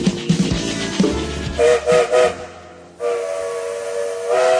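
Steam train departure effect: a hissing rumble gives way to three short tonal whistle blasts, then a long sustained steam whistle that carries on to the end.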